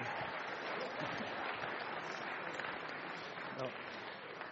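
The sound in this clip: Audience applause welcomes a seminary president to the stage, a steady, dense wash of many hands clapping that holds at an even, fairly faint level throughout.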